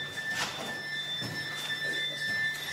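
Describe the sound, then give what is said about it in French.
High electronic beeping from radiation dosimeters and smartphones in an abandoned Soviet-era town, heard as thin, steady tones that break on and off without stopping over a low background hiss. “avec en musique de fond, le concert ininterrompu des bips des dosimètres et des smartphones.”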